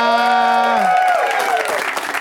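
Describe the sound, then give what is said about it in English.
Audience at the Upright Citizens Brigade Theater in Los Angeles claps and cheers. A held tonal note breaks off, and dense, loud applause with cheering swells and then continues steadily. “You guys know when to clap. It's awesome.”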